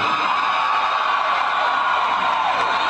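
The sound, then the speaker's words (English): A crowd cheers and whoops at a political speech in a sustained, dense roar. It holds a steady level for nearly three seconds, without breaking into separate shouts. “I mean, listen to those cheers.”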